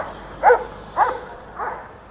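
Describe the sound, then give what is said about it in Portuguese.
A dog barks three times at roughly even intervals, with short, mid-pitched bursts; the third bark is softer than the first two. “Mais um cachorro. Oh, meu Deus, hoje é o dia da cachorrada treteira.”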